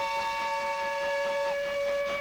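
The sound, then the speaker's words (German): A steam locomotive whistle on the tracks sounds as a steady, loud note with several layered tones, held unbroken from start to end. “Heute sind alle Dampfloks aufgeregt. Sie rattern übermütig auf den Gleisen umher und plappern und kichern und dampfen. Gerade kommt eine von ihnen herangeschnauft.”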